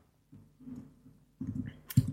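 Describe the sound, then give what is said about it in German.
Someone types a search on a computer keyboard. A few faint bursts of soft key clicks come in quick clusters, ending with a slightly sharper tap. “Yahoo Answers tippe ich mal, ist das erste Ergebnis.”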